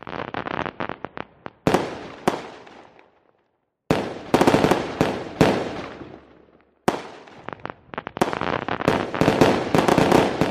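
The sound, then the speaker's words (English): Fireworks go off in several rapid volleys of sharp bangs and crackles. The bursts are loud, and brief silent gaps separate them as each volley dies away. “Can you guess what that sound is? If you guessed fireworks, you are correct.”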